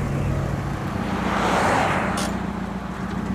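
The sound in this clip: A car pulls away and drives off, a steady low engine drone with continuous road noise that swells slightly midway and then settles, no voices.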